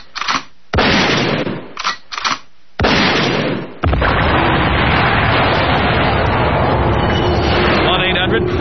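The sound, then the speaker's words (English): An explosion sound effect: a few sharp, loud bursts with short gaps between them, then a long, sustained roaring blast of broad noise that continues to the end. “Hey, could you take me out to Double Columbine, then an explosion?”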